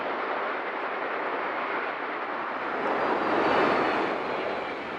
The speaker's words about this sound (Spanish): Un avión, ¿no? Claro, un Boeing. Este es el Boeing 727. Cuando despega, ese es el sonido, ¿no?